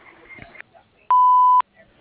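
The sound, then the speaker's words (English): A single steady electronic beep from an answering machine, mid-pitched and about half a second long, sounding right after a recorded greeting voice ends. “Please leave a message at the beep, and we'll get back to you as soon as possible.”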